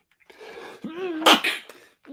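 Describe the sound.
A single sneeze performed in character during a tabletop role-playing game session, preceded by a drawn-in, wavering "ah" breath that builds into one sharp, noisy burst, followed by a brief fading tail.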